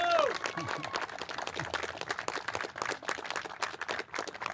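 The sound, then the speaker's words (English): Audience applause welcoming the Honorable Delegate Freitas as a speaker, brisk continuous clapping throughout, with a brief voice at the very start. “So I would like everyone to give a very warm welcome to the Honorable Delegate Freitas.”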